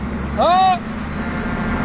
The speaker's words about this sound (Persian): بذار شل کنم یه بوق واسش بزنم ببینم کمک میخواد یا نه.